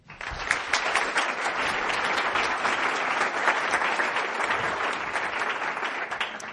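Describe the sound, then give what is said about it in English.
Audience applause welcoming the next presenter at an evening talk: dense, sustained clapping at an even level for the whole stretch, with no voices standing out. “And so I would like to have you give a very warm welcome to our next presenter, Mark Dwight.”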